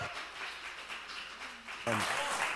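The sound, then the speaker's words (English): An audience bursts into applause for a speaker's welcome, a dense wash of clapping that starts abruptly near the end after a stretch of talk. “You guys, give him a warm welcome and let him feel good this morning.”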